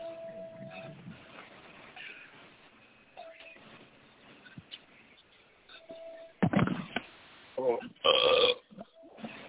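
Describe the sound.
Loud, croaking burps come through a narrow telephone line after a stretch of muffled talk. A few belches cluster near the end.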